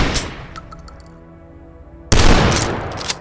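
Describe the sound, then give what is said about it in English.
Two shotguns firing in a video game, each a loud, sharp boom with a rumbling tail. The second, heavier blast comes about two seconds after the first and rings on to the end. “Here's the two shotguns for the dorks like me.”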